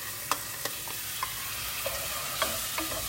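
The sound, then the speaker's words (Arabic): Orange lentils frying and being stirred with browned onion in a pot, a steady soft sizzle broken by a few light scraping clicks from the stirring, with no voices. “هلا نزلنا العدس فوق البصله اللي تحمرت تمام”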